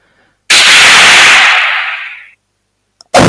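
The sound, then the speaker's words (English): A single loud gunshot blasts out and rings into a long hissing decay lasting nearly two seconds, followed by a brief click and another sharp burst at the very end. “Take the shot or the death squad will be sent for you.”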